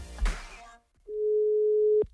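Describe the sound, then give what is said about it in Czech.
A single steady telephone tone of about one second sounds while a call to a mother is being dialed. It comes just after a brief burst of voice and stops abruptly. “Vytáčím mámu.”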